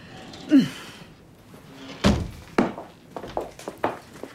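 Heavy doors swing open into the auditorium of a floating theater, giving a few dull thuds of uneven strength. Two loud knocks come first, followed by several lighter bumps, with no talk over them.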